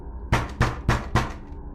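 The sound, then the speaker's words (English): Four firm knocks on an apartment door in a small complex, evenly spaced and hollow-sounding, each a sharp thud with a short decay and nothing else heard. “I froze because I didn't really want to talk to anyone, but the knocking continued.”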